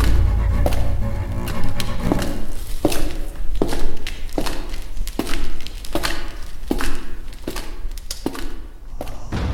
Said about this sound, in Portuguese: Eram passos, pesados, dentro da casa escura.